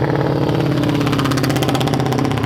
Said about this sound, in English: It's an old single pop 500cc Velo, I think that was.